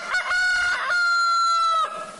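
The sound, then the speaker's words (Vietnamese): A person imitates a rooster's crow by mouth, one loud drawn-out call held at a steady, bright pitch before breaking off, with no other sounds around it. “nghe như đang học tiếng gà gáy vậy.”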